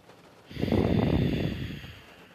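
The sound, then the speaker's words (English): A slow exhale through the nose in a calming breathing exercise: after a brief quiet moment, one steady, breathy rush of air swells and then gently tapers off, with no voices. “Now exhale through the nose.”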